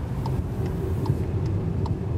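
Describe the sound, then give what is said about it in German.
A car driving along a road, a steady low engine and road rumble that never lets up, with faint regular ticks sounding at even intervals over the drone. “Mit dem Auto geht es raus aus Malaga, 2 Stunden Richtung Osten in die Provinz Almería.”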